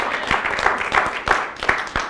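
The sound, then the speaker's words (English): A church audience applauds during a Resurrection Sunday service. Brisk, moderately loud clapping forms a continuous patter, with a few sharper claps standing out. “And I think he needs a round of applause for that.”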